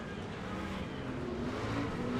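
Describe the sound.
Racing trucks jostle on a race track, their engines blending into a steady, dense roar that holds without a break, fairly faint and even in level.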